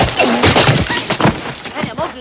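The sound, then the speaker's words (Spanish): Hammer blows breaking a chain in a western action film: a few loud, crashing metallic strikes mixed in with voices and scuffling. “Rompe la cadena con el martillo. Rompe la cadena.”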